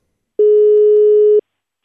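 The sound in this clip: A telephone ringing tone on a phone call: one steady, mid-pitched tone lasting about a second, heard alone and clearly, with a brief faint sound just after it ends.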